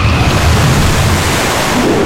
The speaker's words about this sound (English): and the cavity filled almost instantly with water.